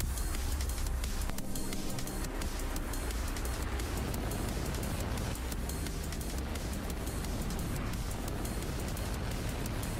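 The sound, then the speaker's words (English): A SpaceX Falcon 9 rocket roars through liftoff on a Starlink mission, a dense, loud, continuous rumbling blast that holds steady throughout with no voices. “Launch auto sequence has started. 6, 5, 4, 3, 2, 1. Go for launch.”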